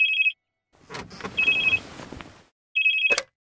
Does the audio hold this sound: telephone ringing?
yes